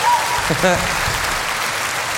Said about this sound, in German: Also, Franz, einen Applaus für Franz Schumacher, mein Freund.